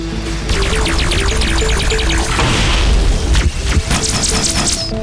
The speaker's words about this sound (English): At this point, alien bombs began to explode just beyond the perimeter.